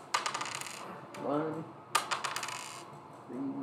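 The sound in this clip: Dice clattering during a tabletop role-playing game roll for healing: two quick bursts of hard, bright rattling clicks, one at the start and a louder one midway, with brief talk in between and at the end.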